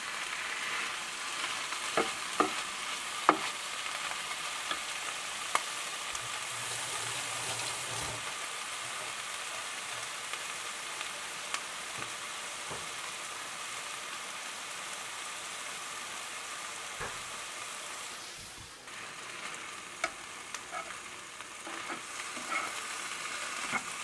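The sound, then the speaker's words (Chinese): Salted egg yolk and squid stir-fry in a pan with a steady, busy sizzle, broken by many sharp clicks and scrapes as the mixture is stirred; no voices. “这边拌炒的过程就可以视你的喜好加入少许盐巴，然后也可以加一点胡椒粉，会更有味道哦。”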